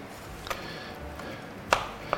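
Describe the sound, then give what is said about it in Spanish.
Faint knife chops as garlic is finely chopped: a few sharp, light taps spaced apart over quiet background noise. “voy a picar un ajito. Le he dado poca fuerza para que me dé tiempo a limpiar las setas. Limpiar y picar. Bien picadito el ajo,”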